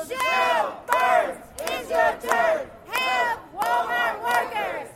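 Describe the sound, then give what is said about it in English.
Protesters chant outside an apartment building in support of Walmart workers, a group of voices calling out a short slogan in loud rhythmic phrases that repeat with brief gaps between them. “So just to make sure she hears us, we're going to make sure that we set a chant.”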